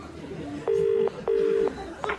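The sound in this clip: Telephone keypad tones sound as a number is dialed. Two sustained electronic beeps of even length are followed by a shorter third beep, each clear above a low background hiss.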